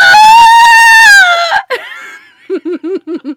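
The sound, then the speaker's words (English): A snake creature shrieks in a so-bad-it's-good movie: a loud, piercing, harmonic screech lasting just over a second that sags slightly at its end. A run of short, rhythmic laugh-like bursts follows. “Oh my God, the shrieking.”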